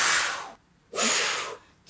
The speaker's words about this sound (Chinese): 俾只手指嚟， 系， 跟住摆喺个嘴唇中间， 中间 个嘴唇要捂住嘅， 捂住 啲嘴， 读个呼字，呼 呼， 但系调翻转系吸气